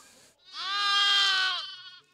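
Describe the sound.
A single drawn-out bleat from a bottle-fed lamb on a sheep farm, a loud, wavering, harmonic-rich cry lasting over a second, heard alone.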